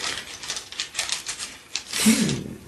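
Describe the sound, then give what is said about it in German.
Twenty-sided role-playing dice rattle and clatter as they are rolled during a tabletop game, making a dense run of sharp clicks and knocks that swell slightly near the end. “Das sind 20-seitige Würfel, ein Rollenspielwürfel.”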